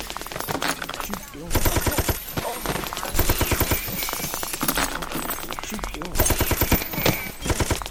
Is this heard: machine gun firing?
yes